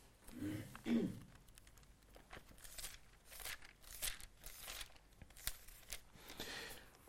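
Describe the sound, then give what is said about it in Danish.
Bible pages being turned while someone looks up John chapter 13: many soft papery rustles and crinkles, in irregular bursts, with a fuller flutter near the start and quieter flicks afterward. “Nu prøver jeg at slå op i Johannes kapitel 13.”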